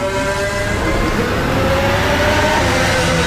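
Lando Norris's McLaren Formula 1 car runs its 2026 warm-up lap during a timed session. Its engine gives a loud, steady, high-revving drone with a strong sustained harmonic tone, and the pitch stays nearly constant throughout.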